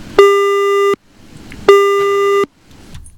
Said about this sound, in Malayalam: നമ്മുടെ കോളർ കട്ടായിപ്പോയെന്ന് തോന്നുന്നു.